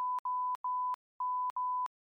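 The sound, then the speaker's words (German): A censor bleep covers a spoken name: five short, steady mid-pitched tone bursts in quick succession, each separated by a brief gap, with no voice audible. “du hast den Namen jetzt ganz oft gesagt, ich piep den.”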